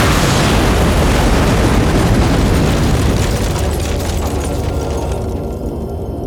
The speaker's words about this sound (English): With an almighty blast, the entire wall behind you, the one that faces the street, explodes in.